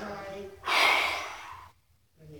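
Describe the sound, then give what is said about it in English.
A person draws one deep, loud breath lasting about a second, with a soft, airy hiss, set between short stretches of quieter sound. “Lord, I thank you for that breath. I think I'll take another one.”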